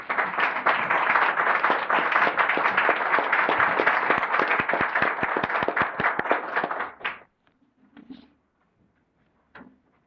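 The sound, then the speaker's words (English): An audience in a legislative chamber applauds to welcome a deputy clerk. The dense clapping lasts about seven seconds, breaks into a few scattered claps and then fades to near silence, with a couple of faint later sounds. “Let's just give him a hand and welcome to the last.”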